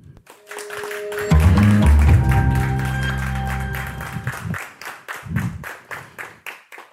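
Audience applause at a theatre award presentation for the production Lolita for altid. Dense clapping plays alone, continues beneath a loud sustained musical sting, then carries on by itself to the end.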